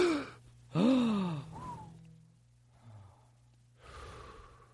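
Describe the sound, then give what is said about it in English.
A nervous person takes a deep breath, a loud voiced gasp with a sweeping tone, followed by softer sighing breaths and faint breathing. “Okay, I got to take a deep breath.”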